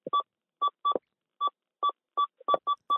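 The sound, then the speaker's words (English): Short electronic beeps from a speech-producing box sound in a quick series of about nine tones at roughly the same pitch, irregularly spaced, clear and alone. “as you're producing language with this box, and how does the beep play into that?”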